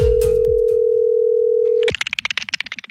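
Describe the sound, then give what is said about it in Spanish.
A telephone call is placed for a phone prank: a steady, loud dial tone holds for about two seconds, then a quick series of many short, higher tones follows. “Estamos llamando a Rosa Melo a ver si lo quiere aceptar en su casa. Esto es la clavada telefónica.”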